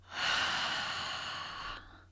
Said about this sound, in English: Last bunny breath. Ready? Inhale. And exhale.